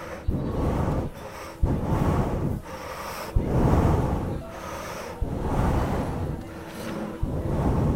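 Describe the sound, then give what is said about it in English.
Slow, deep breaths taken to calm down: a series of heavy, breathy inhales and exhales, each a broad rushing hiss of several seconds, with no talking. “Deep breaths.”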